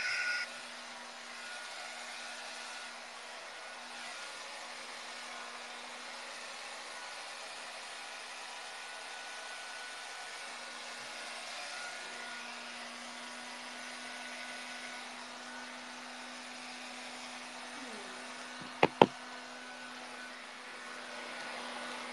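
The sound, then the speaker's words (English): A hair dryer drying hair in a bathroom gives a steady, even whirring hum with a constant low tone that runs unbroken throughout. Two faint clicks sound near the end. “Now in the bathroom. I'm gonna dry my hair, okay? Excuse me. They have a really nice hair dryer here.”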